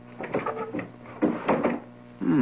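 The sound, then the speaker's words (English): A nailed-shut window is opened once its nail is pulled, producing a run of creaks and wooden scrapes in short bursts, ending in a louder, grinding slide. “I pull the nail out of this one and open the window.”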